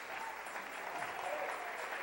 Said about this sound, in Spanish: Denle un aplauso al rey.